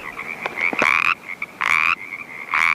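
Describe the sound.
A male frog croaks to warn rival males off: three loud, harsh, buzzy calls, with softer short pulses between them.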